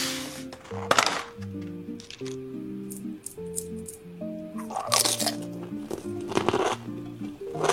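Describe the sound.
Crunching as a woman bites into a chocolate egg in an eating video, a few loud, crisp crunchy bites with softer chewing squishes in between, over steady background music.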